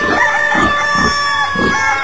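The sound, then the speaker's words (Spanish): A rooster crows at daybreak, its call blending with steady sustained tones, while a rhythmic low pulse thumps underneath about every half second. “Un gallo madrugador al sol viene despertando.”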